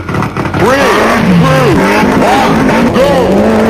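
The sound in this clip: A rally car engine from the World Rally Championship video game revs in loud bursts, its pitch swooping up and down in several arcs over a constant growling drone.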